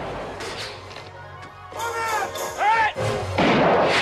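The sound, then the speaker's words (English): Soldiers trade gunfire with a gunman, their bullets ripping through the wooden walls of a house. A few heavy, sharp bursts grow louder toward the end over a low, rumbling background. “More soldiers appear and return fire, their bullets ripping through the wooden walls of the house.”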